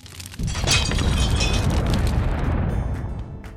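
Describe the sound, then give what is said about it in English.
Overheated machines explode with a sudden loud blast that swells into a dense, crackling roar. It stays loud for about three seconds, then eases slightly near the end. “One day, his machines got too hot. They exploded and burned his hand.”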